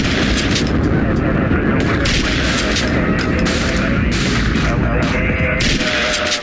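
Gunfire in a shootout: loud, dense bursts of shots fired in rapid succession, continuous and relentless across the whole stretch.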